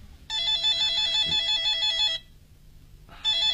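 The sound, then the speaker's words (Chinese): An office desk telephone in a manager's office rings with a loud, warbling electronic trill: one long burst, a pause, then the start of a second ring. “突然办公桌上的电话铃响”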